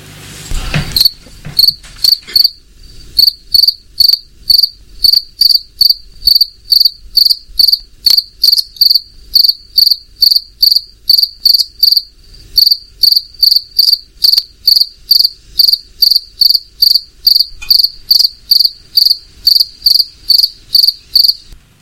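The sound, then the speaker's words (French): A cricket chirps in summer heat, with many sharp, high-pitched chirps repeating in a fast, steady rhythm, loud and alone after a brief rustle at the start. “Alors, est-ce que vous avez trouvé ? Évidemment, il s'agit du grillon qu'on peut entendre de jour comme de nuit en ce moment par ses fortes chaleurs.”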